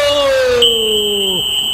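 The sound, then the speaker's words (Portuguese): A referee's whistle ends the first half of a football match between Fluminense and Vitória at the Maracanã: a steady, shrill whistle tone lasting about a second, joined at the start by a sustained voice. “Quando o árbitro da partida aponta para o centro e trilo, apitou.”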